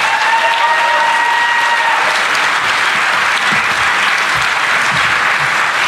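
A live studio audience gives loud, dense applause to welcome a guest, a former Scottish Labour leader, onto a show. The clapping holds steady throughout.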